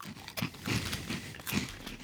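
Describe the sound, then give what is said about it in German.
Crunching and chewing of a jumbo peanut flip snack: crisp, crackly bites running into steady, moderately loud mastication, with no talk over it. “Ich, ich verleibe mir mal so eine Jumbo Erdnussflocke ein.”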